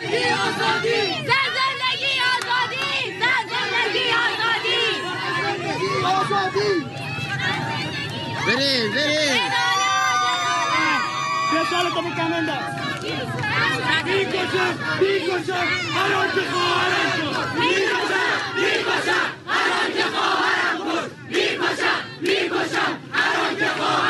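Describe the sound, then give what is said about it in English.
A large protest crowd in the streets of Iran during the uprising, with many voices shouting and chanting together in a dense, continuous roar that stays loud for the whole stretch. “All right, so that's some of the voices from the streets of Iran right now, the uprising.”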